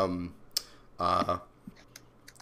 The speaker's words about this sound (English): Are you fucking typing? That's me. I'm typing. I'm sorry. Stop fucking typing.